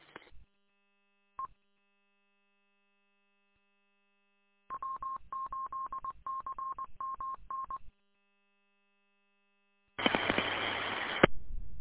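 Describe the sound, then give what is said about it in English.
Telephone touch-tone dialing: a short beep, a second brief tone, then a quick string of many DTMF key tones in a steady rhythm, ending with a loud burst of static-like noise. “Oops, got a phone call.”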